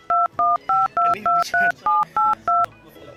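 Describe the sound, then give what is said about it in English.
Telephone keypad tones as a number is dialed: nine short, steady dual-pitched beeps in an even rhythm, each clean and loud, separated by brief gaps with faint background sound between them. “I've got a number that might be her. Let me try this. Let's see if her phone rings.”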